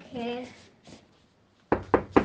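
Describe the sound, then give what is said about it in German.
Three firm knocks on an office door, evenly spaced and sharp, following a short stretch of talk at the start. “Klopft mal bei ihr an, die ist im Büro”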